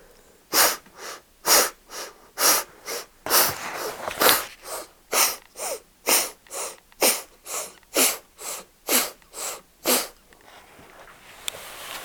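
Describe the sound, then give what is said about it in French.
Forceful, audible exhalations through the left nostril during a breathing exercise: many sharp, breathy bursts in a steady, even rhythm, each a short hissing puff with no talk. “en respirant par la narine gauche, vous chassez l'air de manière sonore, à chaque expire, 12 fois par la gauche.”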